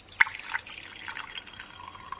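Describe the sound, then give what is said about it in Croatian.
Acetone poured into a glass gives a faint, splashy trickle with a few small drips and a sharp tick near the start. “Sipat ćemo aceton u čašu.”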